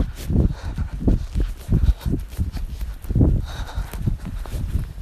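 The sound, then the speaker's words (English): Footsteps of a person running along a prairie trail past a brushed section, a runner in a skirt: many steady, rhythmic low thuds repeating at a brisk, even pace with no voices. “I'm just running past the brushed part of the trail.”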